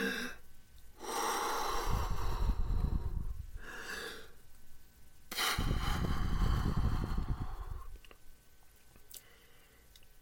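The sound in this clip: Slow, deliberate breathing, the exhales drawn out longer than the inhales: two long, airy breath passes separated by short gaps, fairly soft, with no talking.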